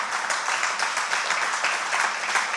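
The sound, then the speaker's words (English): Audience applause during a church sermon: a steady, dense wash of many hands clapping that carries on without a break from start to finish. “you might regret clapping for that”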